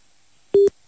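A busy tone after a dropped phone call: one short, steady, low electronic beep that starts and stops abruptly, loud and alone over faint hiss.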